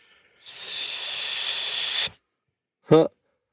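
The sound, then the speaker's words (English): A long, steady hissing exhale made through the teeth as a breathing warm-up for singing holds evenly for about a second and a half and then cuts off. After a short silence comes a brief voiced sound. “So helping people do like a hissing sound, just literally taking a big breath and”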